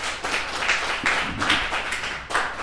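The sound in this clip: An audience applauds to welcome a speaker at a Sacramento County public health committee event, with many claps merging into a moderate, steady patter and a few louder surges.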